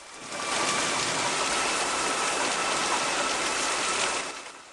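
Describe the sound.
Steady rain in a film scene, a dense, hissing wash of falling water that swells in quickly, holds loud and even for several seconds, then fades away near the end, with no voices.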